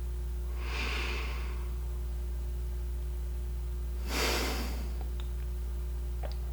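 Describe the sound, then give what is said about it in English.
A slow breath in and a calming breath out during a relaxation exercise: two soft, airy breath sounds separated by a few seconds, heard alone over a low steady hum. “take a slow breath in and a calming breath out.”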